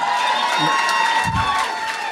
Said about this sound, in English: I want to pick one person who cheered.